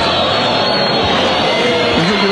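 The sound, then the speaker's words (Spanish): Steady, loud roar from the crowd of Libertad football fans at a match, a dense wash of massed voices with faint tonal singing starting to rise near the end. “Ah, empezó a cantar. La hinchada Libertad empezó a cantar y... Ahí vino la respuesta.”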